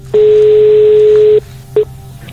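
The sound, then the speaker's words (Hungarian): Ringing tone on an outgoing phone call to a quiz contestant: one long, loud, steady beep lasting over a second, then a short second blip after a brief gap, over a faint low hum. “Csörök valakinél a telefon, remélem, hogy elérem.”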